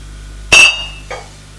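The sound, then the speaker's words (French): A glass bottle clinks as it is set down among other bottles: one bright, ringing knock followed by a second, softer clink. “Elle pose la bouteille qu'elle a prise.”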